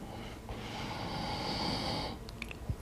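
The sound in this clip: A single slow breath during a breathing exercise, a soft airy rush that swells for about a second and a half, then fades to quiet.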